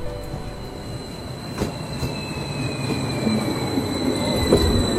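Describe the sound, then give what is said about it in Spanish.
An electric interurban commuter train running on rails between Toluca and western Mexico City: a rolling rumble with high, sustained wheel-squeal tones and occasional clacks, growing gradually louder, with no voices. “Desde hace años se pensó en una alternativa, en un tren, hoy conocido como el Insurgente.”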